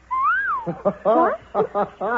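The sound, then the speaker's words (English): A common myna whistles a clear, smooth note that rises and then slides down, followed by a run of short, buzzy, chattering calls in quick uneven bursts. “You did that. You whistled at me.”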